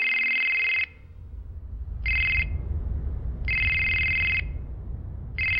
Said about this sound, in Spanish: Pero cuando se disponía a salir, el teléfono volvió a sonar.